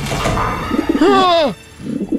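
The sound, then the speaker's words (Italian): Pigeons coo in a comic scene about menacing birds outside a window: one drawn-out, harmonic coo swells in the middle and falls away at its end, with low murmuring sounds before and after. “I piccioni! No! Sono piccioni malvagi!”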